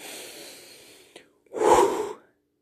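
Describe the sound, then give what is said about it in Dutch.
Deep breathing in and out: a long, soft, airy breath fades away, then after a short pause a louder, fuller breath swells and falls off. “Haal dan gewoon even een paar keer diep adem.”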